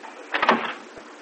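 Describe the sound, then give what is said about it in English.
A door is closed out onto a porch: a short scraping swish with a couple of soft low thuds, followed by a faint later knock. “I'll close the door up”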